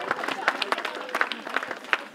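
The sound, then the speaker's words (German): Scattered hand claps from a small crowd honouring volunteers at an outdoor community event for urban development day, irregular and sparse, with uneven sharp claps rather than a dense roar. “Einen großen Applaus für alle Ehrenamtlichen.”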